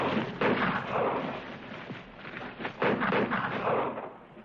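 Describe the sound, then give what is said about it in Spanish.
Gunshots crack through a 1960 western film scene as bullets shatter small clay jars. A few sharp, loud bursts stand out over a dense, rumbling bed of noise. “Los disparos rompen las jarritas.”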